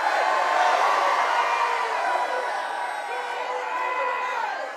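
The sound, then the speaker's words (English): A church audience cheers and shouts during a service in a sustained wash of mixed voices, loud at first and easing slightly toward the end. “Y'all make some noise.”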